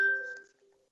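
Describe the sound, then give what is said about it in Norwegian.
A telephone sounds during a meeting with a single short, bright electronic chime that rings clearly and then fades away within a second. It is quiet and heard alone, with no voices. “Vi ble litt forstyrret av en telefon her.”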